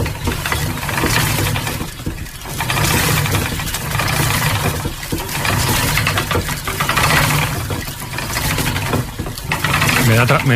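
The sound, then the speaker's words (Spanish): A spinning wheel turns at work, giving a loud, continuous whirring and rumbling mechanical hum that swells and dips in a slow, regular rhythm. “esta pintura de Velázquez, en las hilanderas, la rueca está trabajando, está sonando y tiene un sonido que sonaría así.”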